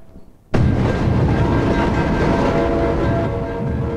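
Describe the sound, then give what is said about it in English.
Freight train passing a highway level crossing: a loud, dense rail rumble that starts abruptly after a short quiet moment and rolls on steadily, easing slightly toward the end. “As the last of a freight train passes, red warning lights stop flashing and a guardrail lifts.”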